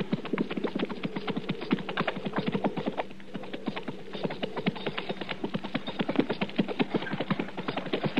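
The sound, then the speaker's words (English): Hoofbeats of a horse pulling a wagon make a steady clip-clop rhythm of many even beats at moderate loudness, with no voices over them. “Mr. Dillon, yonder's a wagon. Yeah, I see it.”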